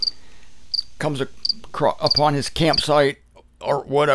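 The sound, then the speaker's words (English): Crickets chirp in short, high, evenly spaced bursts, faint but clear under and between the words of a person talking throughout. “You know, you can just hear the crickets in the background.”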